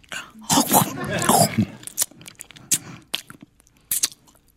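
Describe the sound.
Biting and chewing of a freshly cooked dish that takes four hours to cook. A voice comes first, then a few sharp, separate crunches and chewing sounds follow with short pauses between them.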